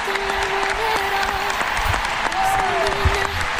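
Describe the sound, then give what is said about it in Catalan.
A football crowd gives an ovation to Alexia Putellas as she says farewell. Sustained clapping from many hands stays loud and even, with voices and brief tonal calls rising above it. “Ovació cap a Alexia Putellas.”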